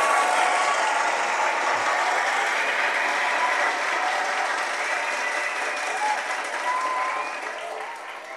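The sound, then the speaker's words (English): Steady, dense applause from an audience at a church sermon, sustained at a loud level throughout and easing slightly at the end. “I don't know what that means to you, what you felt when you heard the initial clap.”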